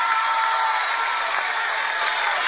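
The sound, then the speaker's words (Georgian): An audience at a Georgian folk jubilee concert gives a sustained ovation, with dense, even applause and crowd cheering that holds at a steady level throughout. “დღეს თქვენი ოვაციები არის ჩვენი ხვალინდელი საგზალი დიდი გზისკენ.”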